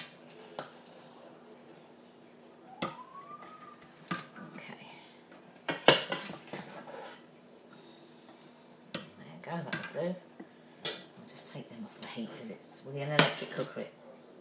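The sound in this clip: Dishes clatter as food is served with a big spoon, with scattered clinks, taps and scrapes of crockery and cutlery, fairly quiet and irregular.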